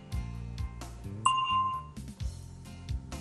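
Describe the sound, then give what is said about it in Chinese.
A bell chime in a language-learning question-and-answer drill rings out once as a bright, sustained ding over a steady low backing of other tones. “请在听到铃声以后回答。”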